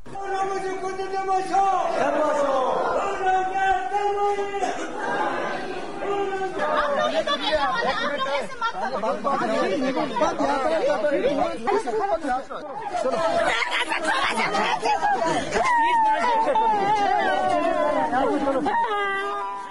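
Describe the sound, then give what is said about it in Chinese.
Tibetan protesters near a monastery in Dharamsala cry and wail loudly during a dispute with Indian police, many voices overlapping in sobbing, rising and falling cries and shouting that run without a break for about twenty seconds. “印度警察和民众发生了争执，许多民众强烈大声地哭泣，抗议印度警察阻扰藏人举行争取自己民族自由的活动。”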